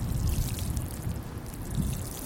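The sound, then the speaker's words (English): Water pours onto vegetable garden plants in a steady, rushing hiss with a low rumble underneath. The sound stays fairly quiet and continuous throughout. “And here comes the water.”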